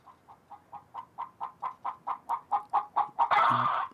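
A hen clucks in a rapid, even series of short calls that grow steadily louder, then breaks into a loud, harsh squawk at the end.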